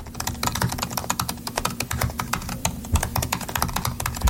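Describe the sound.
Typing on a 2017 MacBook Pro laptop keyboard: many quick, crisp key clicks at a brisk, fairly even pace, loud and alone with no talking.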